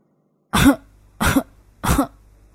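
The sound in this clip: An old man's dry, harsh cough in a rural village: three loud, separate coughs spaced roughly evenly, each short and rasping, with quiet in between and no talking.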